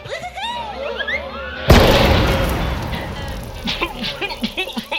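A glitter bomb explodes in a sudden loud burst that spreads into a decaying, noisy rush, after a run of high chirping sounds.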